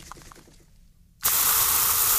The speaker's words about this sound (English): I could bring my gift set in. We could spray it all at the same time. How long did you have to spray it for back in the Purbeck? Give it a good spray.